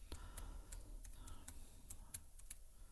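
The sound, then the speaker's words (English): Faint, irregular clicking of fingers typing on a computer keyboard. The keystrokes come in short uneven runs over a soft background hiss. “As I type it in.”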